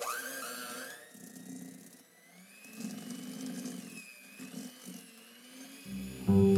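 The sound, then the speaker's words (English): Electric mixer beating cream cheese and egg cheesecake filling in a bowl, a continuous whirring whine that wavers up and down in pitch, with a louder rattling burst at the very end. “I just beat the cheesecake filling in about 3 installments of egg mixture, each time scraping down the bowl to make sure that it's really well incorporated”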